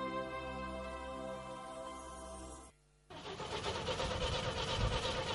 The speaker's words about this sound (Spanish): ¿No arranca? No te preocupes. Héctor Estere y su equipo te lo solucionan. Servicio y recambio de arranques y alternadores.